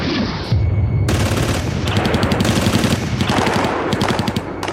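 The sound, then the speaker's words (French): Kalashnikov gunfire during a violent armored cash-van robbery: loud, dense strings of rapid automatic shots that crack sharply after a brief opening, then continue in repeated bursts to the end. “Tirs de Kalachnikov, grenades, lance-roquettes, un arsenal de guerre et une petite armée.”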